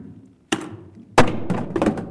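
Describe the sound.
Two balls dropped together in a physics demonstration land at the same moment with a single sharp thud. A brief click comes before it, and a few softer knocks from bouncing follow.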